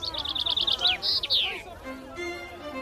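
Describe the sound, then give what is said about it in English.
A finch sings in a singing competition: a rapid run of bright, high trilled notes gives way to a few longer sweeping whistles, then fades to softer tones over steady background noise. “And the finch singing competition, where you have to count which bird sings its song the most times during the course of an hour.”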